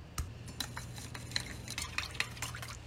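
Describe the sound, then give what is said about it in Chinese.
Spoon stirring a sauce of light and dark soy sauce, cooking wine, chicken bouillon, MSG and oyster sauce in a bowl: a few bright clinks and scrapes against the bowl over a steady low hum. “加入适量的蚝油搅拌均匀”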